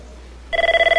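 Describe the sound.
A phone starts ringing partway through, a pulsing electronic trill that repeats in rapid, even beats after a moment of near silence.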